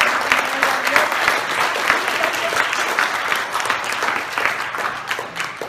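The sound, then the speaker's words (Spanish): A church audience applauds during a worship service, a dense, steady clatter of many clapping hands that holds at an even loudness from start to finish. “Dar un aplauso al Señor.”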